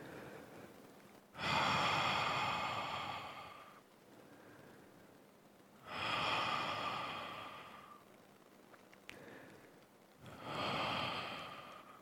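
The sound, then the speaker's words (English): Three long, slow breaths taken lying down during a reclining spine-lengthening exercise, lower back pressed against the floor. Each is a soft, airy rush lasting a couple of seconds, separated by quiet pauses, with no talking. “Take a few breaths, three breaths, long breaths.”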